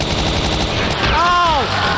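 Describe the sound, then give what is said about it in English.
Rapid gunfire comes from a mounted machine gun in a video game, a dense, continuous rattle of shots. Midway through, a brief whining tone arcs up and back down over the firing. “Oh, he's not just standing there. He's behind a mounted machine gun. Oh, that explains a lot.”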